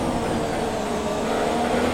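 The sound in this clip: A racing car engine in a Formula 1 video game gives a steady, dense mechanical drone that holds an even loudness throughout, without clear shifts in pitch.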